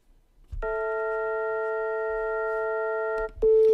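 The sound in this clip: Synthesized tones, a different pitch for each line length of a two-dimensional figure, sound together as a steady chord for about three seconds, then stop, and a single pure tone begins.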